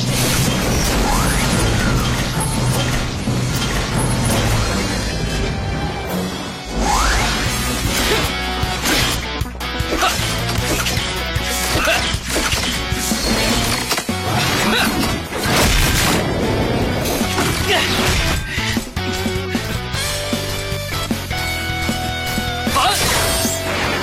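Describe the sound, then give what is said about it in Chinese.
An avalanche crashes down in a loud, dense, continuous roar of crashing, booming and whooshing impacts that barely lets up for over twenty seconds, with only a brief dip partway through. “这是雪崩。”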